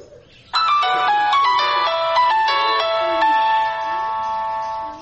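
A mobile phone ringtone plays a loud electronic melody of bright, stepping notes that starts abruptly and continues without pause to the end.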